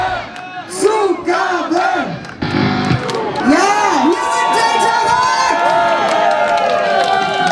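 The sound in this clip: A concert crowd cheers, shouts and whoops at the end of a rock gig, loud and continuous, with rhythmic rising-and-falling shouts early on over a dense roar of voices.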